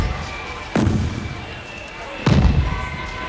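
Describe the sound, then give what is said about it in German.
Two ceremonial gun-salute shots at a state celebration: loud, sharp booms spaced well apart, each with a short rumbling decay over a steady background hum. “Böllerschüsse.”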